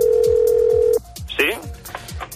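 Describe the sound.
A telephone call opens with a steady, loud telephone tone that lasts about a second and then cuts off abruptly. A brief voice follows, with faint background noise.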